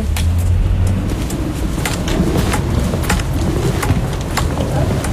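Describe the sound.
A car driving toward the hospital in Saint-Denis gives a steady, loud rumble of engine and road noise inside the cabin, broken by a few faint clicks and rattles.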